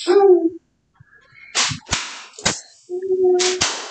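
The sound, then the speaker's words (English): Sharp cracks of a leather flogger striking, a few loud, crisp slaps at irregular intervals, with a sustained voiced tone at the start and end. “Flogger. The leather flogger.”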